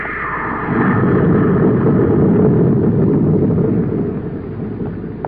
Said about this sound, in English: Clear that rocket blast.